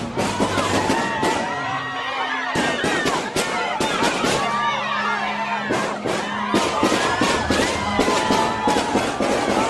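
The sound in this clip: Gunfire from four or five armed men at a concert in France: many sharp, loud cracks follow one another in quick, irregular bursts over a continuous crowd din, with voices and shouts mixed in.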